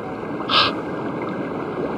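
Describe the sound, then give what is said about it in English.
A rain-swollen river swirling beneath a shaky footbridge gives a loud, steady rushing roar, with one brief hissing surge near the start. “The rains are swirling the river, swirling around like some mad dog.”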